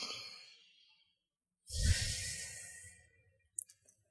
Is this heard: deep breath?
yes